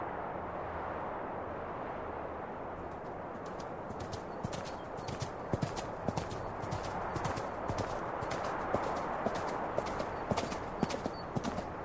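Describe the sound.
Hooves of a ridden horse clip-clopping in a steady, even rhythm that grows clear after a few seconds, fairly faint over a constant broad rushing noise.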